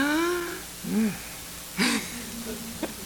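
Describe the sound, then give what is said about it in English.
A voice imitates a sharp intake of breath: a short, breathy, hissing gasp that stands out between brief voiced sounds and a quiet background. “I hear Maggie suck in her breath.”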